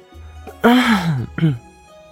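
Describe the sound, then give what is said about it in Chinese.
A throat-clearing cough, two voiced bursts: a longer, louder one followed by a shorter one after a brief pause, alone against a quiet background. “天尊咳嗽一声”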